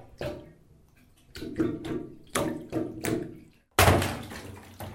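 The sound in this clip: Water splashes and runs while someone bathes, a series of sharp bursts that each fade out, separated by short quiet gaps, with a larger splash near the end.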